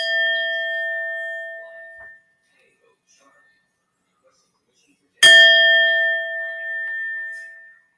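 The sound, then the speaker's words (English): A Tibetan singing bowl, received as a gift, rings out in bright sustained metallic tones with layered overtones. One ring is already sounding and fading at the start, then a second clear strike follows a silent gap and slowly decays. “Tibetan bow, was a gift to me from my lovely friend Terry, who's on the show. So thank you. I love this. I have a couple of other ones, but let's see how this sounds.”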